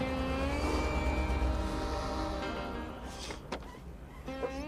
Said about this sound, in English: the other car rolls up face to face with them.